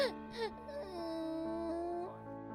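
A small child cries faintly in a thin, drawn-out, whiny tone that wavers slightly and holds steady for a couple of seconds before fading.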